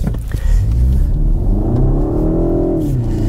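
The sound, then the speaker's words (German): A BMW 128i accelerates, its engine drone climbing steadily in pitch over a loud, low rumble of road noise, then easing off near the end. No one talks. “Ich gebe zu, da bin ich nicht so gefahren wie jetzt weil du willst ja wissen, wie sich der BMW 128i wirklich fährt.”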